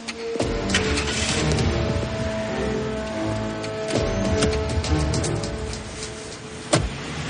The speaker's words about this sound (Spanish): Steven le abre la puerta del coche y ella entra. Se sienta con la mirada desconcertada mientras él da la vuelta y se sube por la otra puerta.